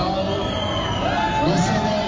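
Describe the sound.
A crowd boos and jeers at the Ecopetrol shareholders' assembly in Corferias, Bogotá: a continuous, loud mass of voices with overlapping shouts and no pauses.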